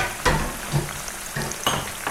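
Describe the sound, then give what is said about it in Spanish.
Food fries in a pan with a constant, loud sizzle and crackle. A few sharper scraping bursts from stirring break through the hiss. “cocinar, ¿lo adivinaron?”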